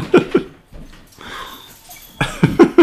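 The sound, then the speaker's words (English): A voice imitates raspy, heavy breathing, as from a breathing problem caused by enlarged tonsils and adenoids. Short, rough gasping bursts come at the start and the end, around a longer, hissing, wheezy breath in the middle. “I had a real bad, like, Darth Vader sound and breathing problem”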